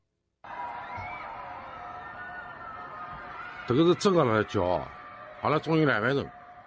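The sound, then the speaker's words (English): People scream and shout from apartment windows in Shanghai during a COVID lockdown: two loud bursts of high, wavering voices rise over a steady urban hum and distant murmur. “Shanghai residents heard screaming from their windows as the COVID lockdown continues.”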